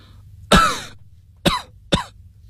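A man coughs violently: three harsh, rasping coughs, the first loudest and longest, followed by two shorter, sharper ones in quick succession.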